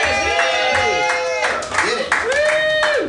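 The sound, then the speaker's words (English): An audience applauds a comedian being called to the stage, with steady clapping throughout and excited voices cheering and whooping above it. “Ladies and gentlemen, I don't know if he's here. Put your hands together for Ernest James Green.”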